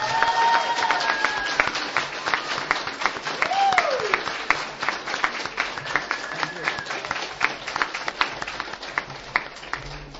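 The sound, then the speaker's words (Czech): An audience applauds the team after a week-long event, with dense, steady clapping throughout and a voice briefly rising above it. “Takže bych ještě jednou chtěl poděkovat našemu týmu, protože díky nim ten týden byl úplně úžasný a chtěl bych jim za to moc poděkovat, tak jestli bychom jim mohli zatleskat.”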